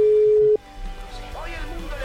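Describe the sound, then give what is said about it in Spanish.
A telephone rings out during a live radio call to a doctor: one steady, mid-pitched ringback tone holds for about half a second and cuts off, leaving low hum and faint voices. “A ver, sonando el teléfono. Quizás esté ocupada.”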